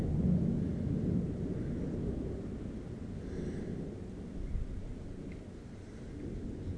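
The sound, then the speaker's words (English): Thunder rumbles from a thunderstorm with no rain, a low, continuous rolling roar that holds steady throughout without any separate sharp crack. “I don't think I've seen a thunderstorm with no rain.”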